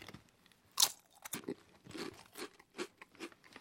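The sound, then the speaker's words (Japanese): Crunching bites of Calbee potato chips in ume-katsuo (plum and bonito) flavour, faint, crisp, irregular crunches and chewing crackles, one louder crack early on followed by many smaller ones, with no voices. “今日持ってきましたカルビーポテトチップス合格する場合、今年の味は梅かつお味です。 梅かつお味、 毎年味が違うんですよ。 ポップなイラストが書いてます。合格する場合、ちょっと味見しますよ。”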